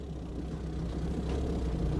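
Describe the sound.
A car driving over ice on a road near Dno in the Pskov region, heard as a continuous low, dense rumble of tyres and engine that holds steady throughout, with no voices.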